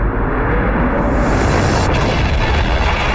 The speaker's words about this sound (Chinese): 一次猛烈的爆炸撕碎了阿波罗13号脆弱的外壳，摧毁了生命维持系统、导航系统和电力系统。